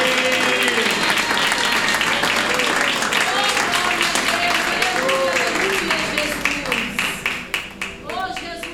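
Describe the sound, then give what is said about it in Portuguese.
A church audience applauds during a worship service while a voice carries on over the clapping. The dense, loud clapping thins near the end into a few separate claps. “Palmas para Jesus. Palmas para Jesus.”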